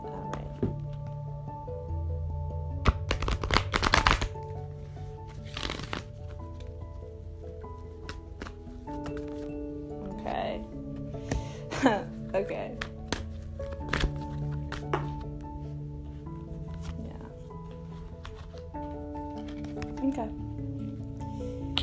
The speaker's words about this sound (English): If you hear that sound, that is the sound of my cards shuffling.